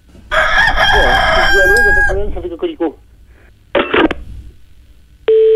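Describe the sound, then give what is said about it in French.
A rooster crows in one long, loud harmonic call that breaks into shorter falling notes. A couple of brief squawks follow, then a steady electronic tone. “Ah ben ça cocoricote tout le temps.”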